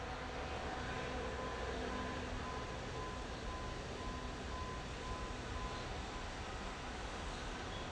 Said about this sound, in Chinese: 其实我们今天是在铁路旁边录音 所以 等一下会听到火车的声音 这是 来了 火车来的声音。